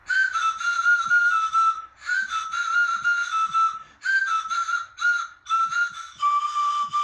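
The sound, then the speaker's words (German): Breathy pan flute notes from a homemade instrument built from disposable razor-handle stems in a prison, sounding as a series of short airy phrases held near one pitch and separated by brief pauses, with a soft hiss of breath. “Aus den Stielen von Einmalrasierern bastelten sie eine Panflöte. Und das klang dann so.”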